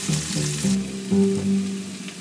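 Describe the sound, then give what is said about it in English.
Peppers and onions sweating together in a pan give a steady sizzle with fine crackling, holding an even, moderate level for about two seconds, with no voices. “I'm going to take a short break while I sweat down the peppers and onions and get the tomatoes ready.”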